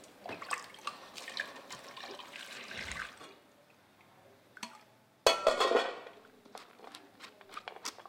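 Water splashes and trickles as a calf stomach is rinsed clean for cheese rennet. Irregular splashing and dripping fill the first seconds, then fade to faint drips before a sudden louder burst of sloshing water, followed by scattered splashes.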